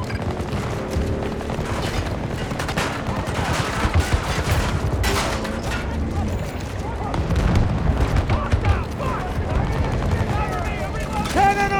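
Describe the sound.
Rapid gunfire from a gun in a video game, dense and continuous with many overlapping shots and booms throughout, under people talking.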